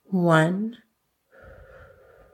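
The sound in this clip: An audible exhale during a guided breathing exercise: one short, voiced, sigh-like breath lasting under a second, then a pause and faint steady sound.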